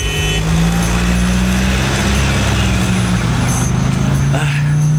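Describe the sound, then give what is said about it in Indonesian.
A car engine revs hard as the driver speeds through a traffic light turning yellow. It makes a loud, steady, low engine drone that lasts throughout. “Masih bisa tancap gas nih. Pasti bisa. Gaspol.”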